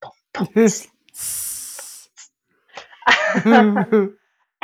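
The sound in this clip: A voice imitates a snake's hiss for a snake-like creature from Choctaw folklore. The breathy, sustained hiss lasts about a second and falls between stretches of lively talk.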